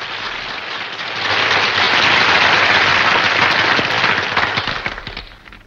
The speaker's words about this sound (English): A ripple of applause spreads through a section where uniformed women are sitting.